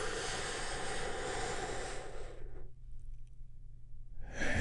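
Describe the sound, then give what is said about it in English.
A deep, healing breath in and out, heard as a long, loud, airy rush of breath. It cuts to a short silence, and then the next breath begins. “We get things started by taking a big, deep, healing breath all together.”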